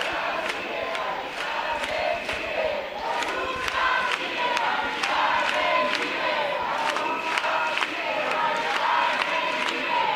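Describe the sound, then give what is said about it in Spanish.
A seated crowd near a police cordon outside the Congress of Deputies in Madrid chants in unison, with sharp rhythmic clapping in a steady beat over a continuous murmur of many voices. “Así suenan las inmediaciones del Congreso de los Diputados, con una multitud sentada frente al lo más cerca que han podido llegar, que lo permite el cordón policial, a las puertas del Parlamento.”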